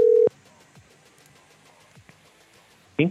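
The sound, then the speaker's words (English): A telephone tone after a call line disconnects: a single short, steady low beep at the start, then near silence, with a brief voice at the very end. “I think the line got disconnected there.”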